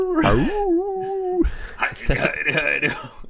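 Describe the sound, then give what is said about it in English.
A vocal howl in a song recording: a wailing voice rises and then holds a steady tone for about a second before talking voices follow. “And he just howls in one of them, like,”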